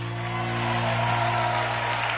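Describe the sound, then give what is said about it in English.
Applause from a sparse audience seated on hard pews in Nashville's auditorium with famed wooden rafters, a thin, even patter of clapping over a steady low droning tone. “So even as they finished their pandemic anthem, End of the World, the applause didn't quite make the famed wooden rafters ring.”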